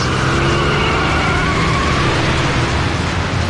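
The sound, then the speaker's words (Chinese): A car engine roars as the driver floors the accelerator and speeds away, a loud, dense and steady rumble lasting a few seconds with no voices. “一面狠踩油门，朝着与肖雷相反的方向疾驶而去。”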